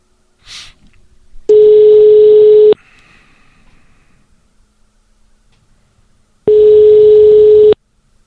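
Telephone line tones sound while a call is placed: two long, steady ringing tones at one unchanging pitch, each lasting just over a second, separated by a quiet pause with faint hiss.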